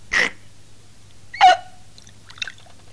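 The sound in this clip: Soup being eaten from a spoon: two short, airy slurps about a second apart, then a fainter brief sound.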